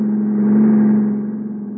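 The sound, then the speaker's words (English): Car engine drone in an old-time radio suspense drama as a car drives alongside and then past on a stormy road: a loud, steady, low hum swells slightly and then eases off with a faint flutter. “He drove right past us.”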